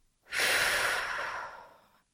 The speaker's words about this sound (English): Deep breath in, gathering it all up and letting it go.